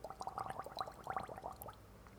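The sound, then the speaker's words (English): A person gargling, a faint bubbling gurgle of rapid, irregular pulses lasting about a second and a half before it stops. “During a cancer story, you're going to gargle, huh?”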